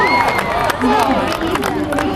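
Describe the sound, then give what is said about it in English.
Cheering and shouting from a mixed crowd of onlookers watching armoured fighters battle with long swords, a dense, loud babble of voices with a person talking over it. “There's a vigorous mixture of peasants, witches and squires looking on and cheering.”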